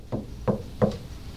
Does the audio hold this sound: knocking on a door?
yes